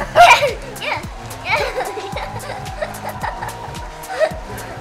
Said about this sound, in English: Listen, to the party.